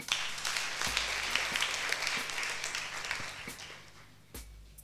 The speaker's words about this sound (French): on acclame Jésus